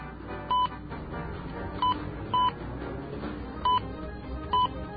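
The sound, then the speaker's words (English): Touch-tone keypad beeps as an international number is dialed on a telephone: five short, bright tones at uneven intervals over a faint steady hiss. “Okay, so what we do is dial 011, and then the country code. In this case, is England, so we'll dial 44, and then the city code.”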